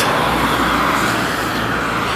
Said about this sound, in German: jetzt fährt sogar noch gerade ein Rettungsdienst hier raus mit Blaulicht in die Nacht